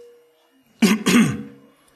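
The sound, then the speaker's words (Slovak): A man, a preacher, clears his throat in two quick, rasping bursts that close together and then trail off, with quiet before and after. “A po chvíli trapného mlčania kazateľ si odkašle a povie,”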